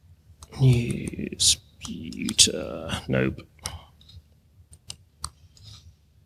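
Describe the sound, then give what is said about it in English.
Keys clatter on a computer keyboard during a live tech talk demonstrating a newsfeed reader. Irregular clicks and taps sound around a person speaking, with sparser clicks toward the end. “Sorry, can't type when people are watching.”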